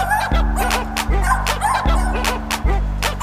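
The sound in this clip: Dog barking in a repeating pattern, with short yappy barks recurring in regular cycles over a steady looping low tone.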